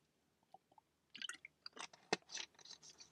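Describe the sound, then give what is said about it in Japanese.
Someone drinking barley tea: very quiet, with a few faint clicks first, then a cluster of soft wet sips, slurps and swallowing sounds, alone with no talk. “ごめんなさい、まだ麦茶飲んでなかった。”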